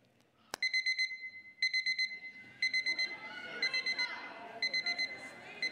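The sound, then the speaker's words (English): Electronic alarm clock ringing in repeated bursts of rapid, high-pitched beeps, about five groups spaced roughly a second apart, preceded by a single sharp click. “Other people are saying you snooze the alarm when you hear that noise.”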